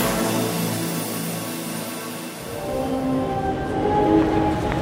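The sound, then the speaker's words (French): Ambience at the Paris-Montparnasse railway station as the train from Bordeaux is about to arrive: a deep rumble gives way to a steady hum with a few thin metallic squeals. “je vous retrouve en gare de Paris-Montparnasse, où doit bientôt arriver le train en provenance de Bordeaux”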